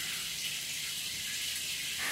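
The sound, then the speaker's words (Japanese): Shower water rinsing hair makes a steady, soft hiss that swells slightly louder near the end. “流しまちゅね。シャワシャワシャワシャワ。”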